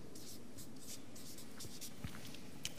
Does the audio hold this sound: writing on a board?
yes